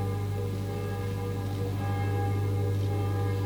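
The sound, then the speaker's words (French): Church bells ring during an ordination service as a bishop lays hands on the candidates, giving a steady, sustained wash of overlapping metallic tones at an even loudness throughout, with no talking. “Les cloches sonnent.”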